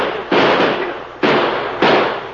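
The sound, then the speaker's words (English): Three gunshots fired at a fleeing rider ring out as loud, sharp bangs, spaced unevenly, each trailing a long, slowly fading noisy tail, with no voices between them. “Shoot at him, boys.”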